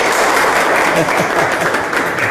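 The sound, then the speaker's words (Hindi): Loud, dense applause from a school quiz-competition audience after the four teams introduce themselves, steady through the whole stretch with a few voices mixed into the clapping. “चारों टीमों ने अपना अपना introduction दे दिया है, आप सब एक बार जोरदार तालियां बजाएं।”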